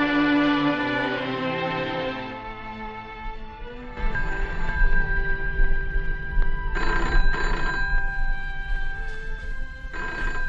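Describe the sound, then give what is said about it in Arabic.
A telephone rings in a dramatized household scene. Its continuous electric ringing starts partway through, after a few seconds of sustained tones, and carries on steadily to the end, with a few brighter, louder bell bursts along the way. “خليك انت يا بدرية، انا اللي هرد على التليفون”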